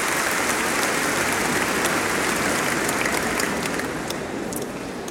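An audience of campers and holiday-home guests gives a rousing welcome with applause. The dense, hissing clapping holds steady, then thins and softens a little over the final second.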